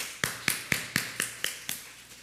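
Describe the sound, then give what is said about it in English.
Hand claps: seven sharp, evenly spaced claps in a steady rhythm, with no voices over them. “I'm glad you clap, brother. I'll clap too.”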